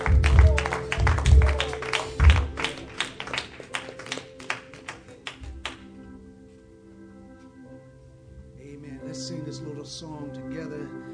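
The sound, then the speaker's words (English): A church audience claps as a clap offering. Many quick, rhythmic claps ring out loudly for about six seconds, then fade into soft, sustained musical tones. “Let's offer unto our God another clap offering.”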